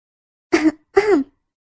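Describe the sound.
A woman gives two short, deliberate fake coughs, voiced and throaty like clearing the throat, separated by a brief pause and surrounded by silence.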